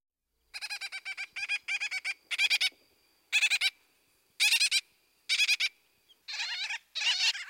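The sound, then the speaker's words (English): A gull-billed tern calls again and again, giving harsh, rattling notes in quick stuttering bursts with short gaps between them, fairly faint against a quiet background. “Gull-billed tern.”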